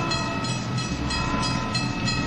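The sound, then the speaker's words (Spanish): An old-fashioned train runs on the line from Temesvar, a steady, dense rumble with a regular clattering rhythm and a sustained tonal whine laid over it. “Un tren anticuado me llevó de Temesvar hasta una distancia todavía respetable de mi punto de destino.”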